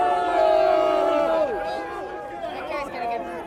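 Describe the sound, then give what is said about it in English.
Crowd booing and shouting at a protester at a Trump rally in Tulsa. Many loud voices overlap in drawn-out tones, several sliding downward in pitch, with chatter throughout. “There is this guy, there is a guy who's yelling, a Trump protester that is yelling in the middle of the protest. He's now getting booed.”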